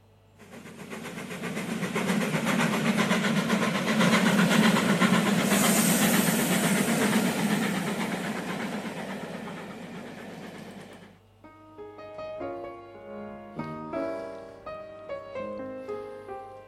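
Train sound effect: a steady, loud hissing rumble with rattling runs for about eleven seconds, then stops abruptly as music takes over.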